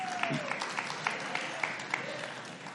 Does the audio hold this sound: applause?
yes

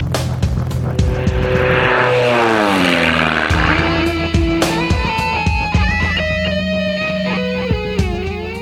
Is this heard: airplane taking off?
yes

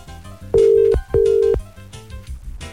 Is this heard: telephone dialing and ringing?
yes

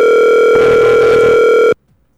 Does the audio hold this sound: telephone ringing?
yes

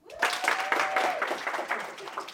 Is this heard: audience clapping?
yes

